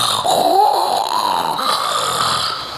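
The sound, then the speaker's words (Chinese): A storyteller's voice imitates snoring, producing one long, rasping, drawn-out snore with a wavering nasal tone that lasts throughout. “哟，打上呼噜了。”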